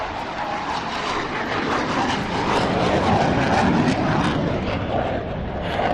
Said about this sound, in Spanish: Si ahora mismo no me oyes, es porque está despegando un F-16 y es muy posible que el ruido me impida escucharte.